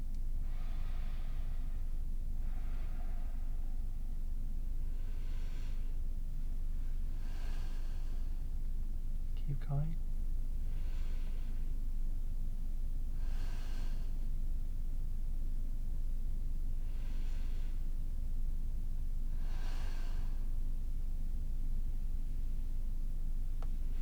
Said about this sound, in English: Now slowly breathe just through your nose, like listen to me.